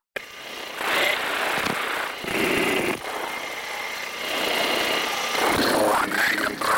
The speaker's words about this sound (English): Magnum 3, harm shot in the air against an SA-3.